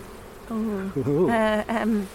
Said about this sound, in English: there's a bee trying to come out. And if you look down here, there's another one trying to come out and another one trying to come out.